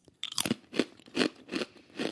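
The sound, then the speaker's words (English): Crisp crunching of a rye chip being bitten and chewed: several sharp, dry bursts in a steady rhythm, alone with no talk. “I just tried the rye chip. The texture is really nice on the rye chip.”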